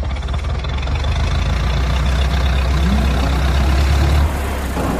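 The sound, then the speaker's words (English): A jeep engine rumbles low and steady as the vehicle starts driving, a continuous heavy drone that cuts off shortly before the end. “He gets in the jeep. Poor Malik. You guys all pile in and he starts driving.”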